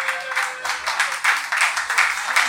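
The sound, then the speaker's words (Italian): Audience applause at a live evening event: a continuous, fairly loud patter of many hands clapping together, swelling and dipping slightly but never stopping. “un applauso alla Luci in Cazzaniga”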